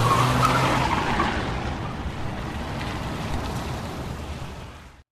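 Car tires skid and squeal as the car takes a corner fast, a loud, harsh screech that starts at full strength and slowly fades over about five seconds before cutting off.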